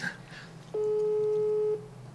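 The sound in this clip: Unanswered phone call ringing, a single steady mid-pitched electronic ring lasting about a second, set between stretches of faint background hiss.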